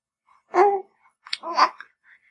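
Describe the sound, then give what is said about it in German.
A baby of nearly four months, sitting on an adult's lap, gives two short babbling vocal sounds separated by a brief pause, soft and breathy, with a faint trailing sound afterward. “jetzt hört ihr gerade vielleicht noch eine andere Stimme. Hier sitzt gerade das Baby auf meinem Schoß”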